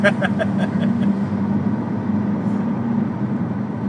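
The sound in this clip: A car engine drones steadily while driving a lap in Colorado, a low, even hum. Brief talk is heard at the start.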